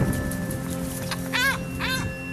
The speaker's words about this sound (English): we can see about four or five adult Johnny Rooks in the air over this colony. And so what we're trying to do is skirt around the colony edge to see if we can get one to jump off a nest.